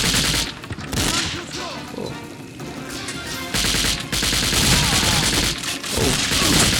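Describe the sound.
Gunfire in a video game: rapid bursts of loud shots in fast succession, broken by brief gaps, nearly continuous throughout.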